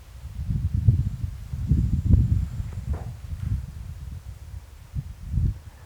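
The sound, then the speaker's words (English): Wind gusting through swaying palm fronds on Loggerhead Key, a low, uneven rumble that swells and eases in several gusts. “The fourth member of our podcast is the wind. I've heard it quite a bit, but I don't really care. I think it adds to the character of it. Yeah, the palm fronds. Yeah. The swaying palms.”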